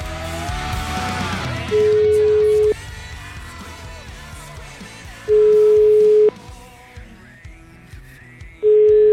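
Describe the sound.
Telephone call tones on an outgoing call being dialled: three long, steady, evenly spaced tones, each lasting about a second, separated by low background noise.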